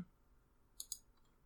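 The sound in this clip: A computer mouse clicks twice in quick succession. Both clicks are faint and crisp, with no other sound.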